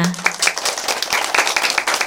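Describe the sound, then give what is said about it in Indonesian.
Brief applause for children during a lesson, a steady patter of clapping hands with a few sharper individual claps standing out. “Tepuk tangan untuk semua!”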